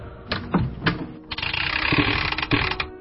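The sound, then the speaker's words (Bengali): A door is unlatched and pulled open during a lightning storm: a few sharp mechanical latch clicks, then a longer rattling, scraping stretch with another click near the end, fairly loud and without voices. “আমি উঠে গিয়ে দরজাটা খুললাম।”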